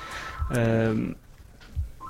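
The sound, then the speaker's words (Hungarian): A telephone rings once with a short, buzzy harmonic tone, with brief talk before and after it. “Egy egyszerű példát majd elmondok, de akkor előbb telefon.”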